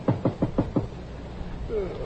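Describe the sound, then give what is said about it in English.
Five quick, even knocks on a door in one short run, then a stretch of faint room noise. “A lean, sallow-complexioned man tosses restlessly in bed as someone knocks on the door.”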